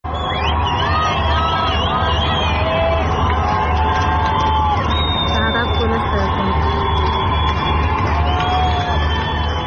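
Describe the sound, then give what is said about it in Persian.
Dense crowd cheering fills a residential neighborhood of Tehran after England's third goal in a football match, with many voices shouting and whooping together. The roar stays loud and continuous throughout without letting up. “صدایی از یک شادی بعد از گل سوم انگلستان منتشر شده که مربوط به شهرک چیتگره تهران هست که هم صدای شادی از هم شعار مرگ بر دیکتاتور”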